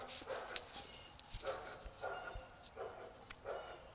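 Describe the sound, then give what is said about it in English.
A dog barks in a series of short, faint yips and barks at an uneven rhythm, with quiet gaps between the bursts. “The dog you hear barking is Goldie.”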